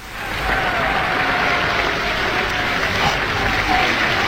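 Sustained audience applause from a crowd gathered to call for a performer, a dense, even wash of many hands clapping that holds at steady loudness for the whole stretch, with no single claps standing out.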